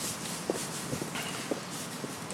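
Footsteps of people walking: about four soft, evenly spaced steps at a relaxed pace. They stay faint over a constant background hiss.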